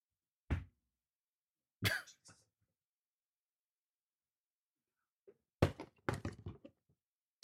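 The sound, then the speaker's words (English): A cardboard box is handled and opened during an unboxing: a few quiet, sharp thumps and scrapes separated by long silences, then a denser cluster of knocks and rustles near the end. “excuse the noise for just a second here because I do have to unbox this thing”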